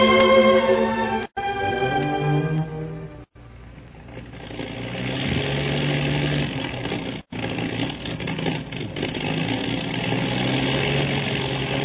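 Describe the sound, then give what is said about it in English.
A failing, conked-out motor runs roughly in a continuous rumbling drone with uneven vibration. The sound cuts out briefly a few times. “I think that motor is really conked out, judging by the sound of it.”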